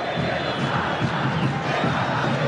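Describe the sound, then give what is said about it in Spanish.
Olimpia football fans chant in the stadium during a match against the Luque side. A dense, sustained crowd roar carries a rhythmic pulsing and stays steady and loud throughout. “El que nos salta se va a la B, canta al público de Olimpia, Gustavito. Señor, es el cántico de la gente de Olimpia, recordando su pasado a la gente de Luque.”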